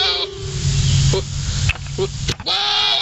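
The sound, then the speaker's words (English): Goats bleat in a mating video: a few wavering, nasal cries with strong harmonics, one at the start and another near the end, with brief rough noises in between. “We stumbled upon goat mating videos and the show is off the rails.”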